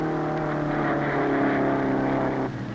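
A jalopy's engine races on a club track with a loud, steady buzzing drone and a harmonic whine. The engine noise eases slightly near the end.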